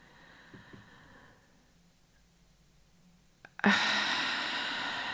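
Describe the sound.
Slow, deep breathing during a breathing exercise: a quiet, near-still stretch gives way to a sudden loud, airy rush of breath that carries on steadily to the end.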